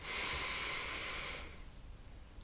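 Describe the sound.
A single deep breath during a guided gratitude meditation: a soft, airy hiss holds steady for about a second and a half, then falls away into near silence.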